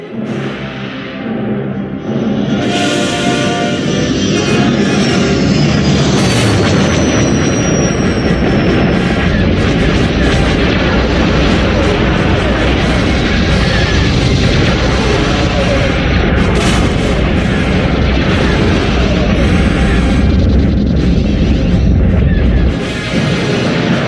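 Space battle film sound as a Star Destroyer flies past in pursuit of a smaller ship: a dense, loud, continuous roar of engines laced with blaster shots and booms throughout.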